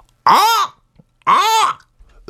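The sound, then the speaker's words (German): A human voice imitates a hawk's cry with two loud, drawn-out screeching calls separated by a short pause. Each call arches up in pitch and then falls. “Ein Habicht, der Vogel Habicht. Okay, der fliegt hoch in der Luft. Ah ja, wie macht er denn?”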